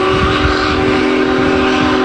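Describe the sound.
Union Pacific 4014 Big Boy steam locomotive passing near the Cuyahoga River: a loud, steady rumble of the train with a sustained, harmonic whistle-like tone riding above it throughout.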